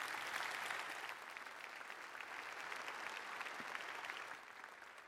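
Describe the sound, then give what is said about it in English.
Faint, steady audience applause greets a speaker at Overlake, continuous clapping from many hands that tapers slightly near the end. “So would you please give a warm Overlake welcome to my friend, Tracy. Come on up, Tracy.”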